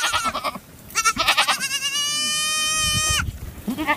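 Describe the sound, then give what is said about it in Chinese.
A ewe bleats anxiously while searching for her lamb: one long, steady, wavering call lasting about a second, with shorter noisy sounds before it and after. “现在他找不到他的孩子，你看把那母羊急的左顾右看，到处乱走，不停地叫唤。”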